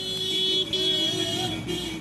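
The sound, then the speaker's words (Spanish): Car horns honking in the streets of Ceuta, Spain: sustained, steady horn tones held over a low traffic rumble, with a brief gap partway through before the honking resumes. “Pero su rutina la rompen las bocinas de coches que pitan y enseñan la bandera de España.”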